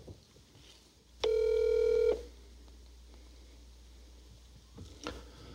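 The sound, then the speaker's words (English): A telephone keypad tone sounds once as a call is dialed, a single steady beep lasting under a second, loud against a quiet background hiss, followed by faint clicks. “So what I'm going to do now, I'm going to call Chase, see if I can get him on the phone.”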